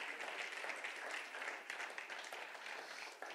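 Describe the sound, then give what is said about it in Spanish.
Applause from a church audience: steady, dense clapping that holds at an even level for the whole stretch without pausing. “Denle un fuerte aplauso a Jesús.”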